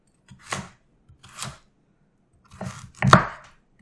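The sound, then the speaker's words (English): A knife chops food into thin slices about an inch thick, with four crisp, irregularly spaced cutting strokes and no talk. “And then I'm just going to cut little slices of that, about inch thick.”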